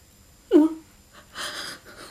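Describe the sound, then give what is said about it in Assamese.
Short wheezing breaths from a distressed, tired person: one sharp, tonal wheezy gasp that quickly fades, then a softer, breathy exhale, both fairly faint. “মোৰ উশাহবোৰ চুটি হৈ আহিছে”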